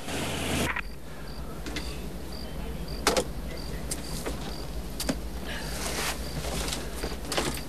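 A car reversing: a steady low engine rumble runs throughout under a rapid, regular, high-pitched beeping, with a few sharp clicks scattered across it.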